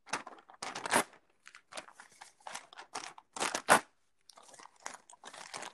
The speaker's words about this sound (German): So, dann kann ich das äh, Blatt auch zerreißen.